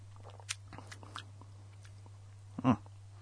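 Someone tastes a Diet Dr Pepper drink, with a few faint mouth clicks and then one short, louder sip-like burst near the end, with no talk.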